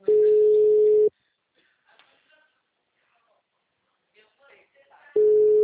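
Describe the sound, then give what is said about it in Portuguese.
Telephone ringback tone on an outgoing call: a steady single-pitch beep about a second long, roughly four seconds of near silence with faint rustles, then the same tone starting again. “Porque eu tô numa ligação aqui ligando.”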